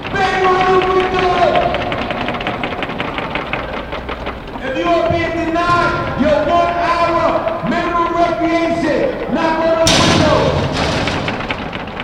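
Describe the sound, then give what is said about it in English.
Inmates bang on the windows of a detention center: many rapid, sharp knocks run steadily through the stretch, mixed with loud shouting and sustained voices. “That's the sound of inmates inside Metropolitan Detention Center banging on the facility's windows in response to protesters asking about the conditions.”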